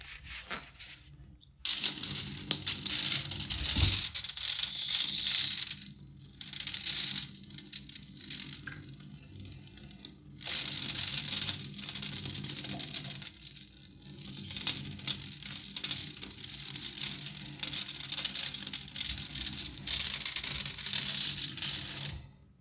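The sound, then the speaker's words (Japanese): Urine splatters onto an aluminum foil sheet from a squatting person, making a steady crinkly patter and rattle that runs almost without a break after a short quiet start. “このヒートの上にしたらいいんですよね。しゃがんで、よいしょ。好きかな。じゃあ、おしっこしていきます。”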